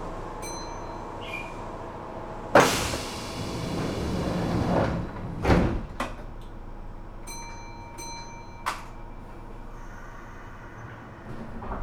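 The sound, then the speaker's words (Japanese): Train doors closing at an Osaka station on a Japanese rail line: a soft chime, then a loud rushing slide and rumble, a sharp clunk, and another chime with a final knock, all over faint steady background hum. “扉が閉まります。ご注意ください。”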